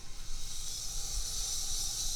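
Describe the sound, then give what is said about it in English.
Water heating in a pot close to boiling gives off a steady, airy hiss. It holds constant throughout over a faint low rumble, with no voices. “is this water boiling yet?”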